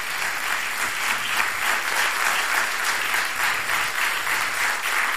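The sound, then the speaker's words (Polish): Applause greets the entrance of two hosts: loud, dense clapping from an audience that stays steady and even throughout, heard alone without voices. “Ależ, mamo, oklaski na wejście.”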